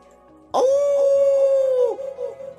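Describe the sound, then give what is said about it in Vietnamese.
A wolf howls in a forest: one long, loud, steady-pitched howl lasting over a second, then trailing off into a few quieter wavering sounds. “Đột nhiên sau lưng có tiếng sói tru truyền đến.”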